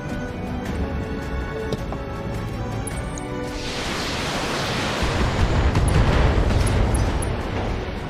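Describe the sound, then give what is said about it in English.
A Shadowhawk mech fires on a turret in a video game. After a quieter opening, a broad rumbling roar swells in and stays loud to the end. “Oh, the Shadowhawk shot the turret a little bit, but it survived.”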